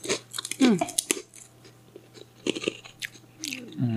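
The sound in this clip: Crisp crunching and chewing of a sweet and salty rice cracker, with many irregular bites and munches that come close and fairly loud, and brief vocal sounds between them.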